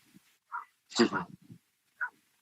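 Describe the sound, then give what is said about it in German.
Dog barking in the background, a few short, separate barks and yips spread across the moment, one fuller burst in the middle and quieter ones around it. “Da bellt sogar der Hund im Hintergrund, ja? Da bellt der Hund.”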